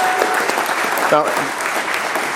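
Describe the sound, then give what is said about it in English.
Congregation applause for the mothers as they stand, a dense, steady clatter of clapping hands with a brief voice rising through it. “Where are the moms? Let's give them a hand.”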